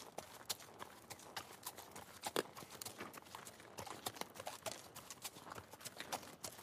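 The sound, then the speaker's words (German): Horse hooves clip-clop steadily as a rider heads down a winding road below a castle, many quick, faint hoofbeats in an even rhythm with no voices. “Zum ersten Mal reitet Götz nicht selbstbewusst und furchtlos die gewundene Straße unterhalb Burg Hornbergs hinab.”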